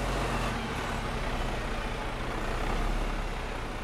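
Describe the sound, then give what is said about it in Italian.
A bulldozer clears rubble in earthquake-hit Amatrice, its heavy engine giving a continuous, loud, rumbling drone with no breaks. “il rumore che, che, che sentiamo di sfondo è appunto una, una ruspa che rimuove macerie”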